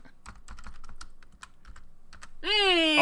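Fast typing on a computer keyboard during a tabletop game session: many quick, irregular key clicks in bursts, ending with a loud sustained tonal sound.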